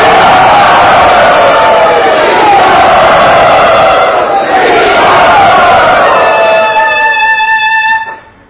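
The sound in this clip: A devotional gathering loudly cheers to welcome a speaker, with roaring shouts and whoops sustained at full volume. A steady harmonic tone rises near the end before everything cuts off sharply.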